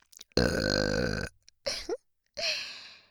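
A person lets out a long, deep, loud burp, followed by two shorter throaty voiced bursts separated by brief silences.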